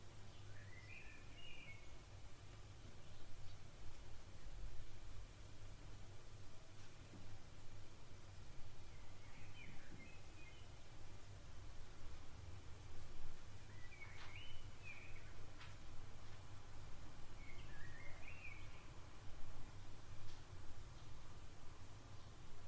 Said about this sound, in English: let me share with you my birdie's song.